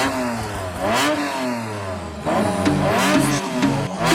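A car engine revs in strong bursts, its pitch climbing and dropping several times in a loud, throaty sweep. No cranking or start-up is evident.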